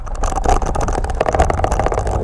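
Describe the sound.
An electric ride-on vehicle, pushed off by foot and then given throttle, pulling away for a lap: a continuous motor hum over low rumbling noise, with loudness fluctuating throughout.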